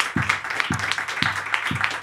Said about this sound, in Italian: Cavoli, un applauso qui, veramente, bravi.